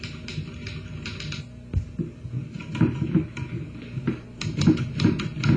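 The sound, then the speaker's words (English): Papers are typed up in an office, with many quick, irregular keystrokes clattering at moderate loudness in uneven bursts. “Will you type some of these papers here? Oh, yes, Joe. I'm going to copy them.”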